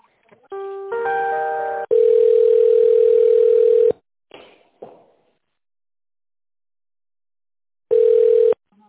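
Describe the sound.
Telephone line tones heard while a call is transferred: a brief burst of mixed tones, then a steady beep lasting about two seconds, a few clicks and silence, and finally one more short beep. No one talks.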